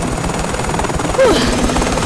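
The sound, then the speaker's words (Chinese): A helicopter propeller spins with a loud, steady whirring thrum and a pulsing low beat. A brief tonal chirp slides across midway, with no talk. “真是太棒了，螺旋桨的风会把你吹到岸上的。”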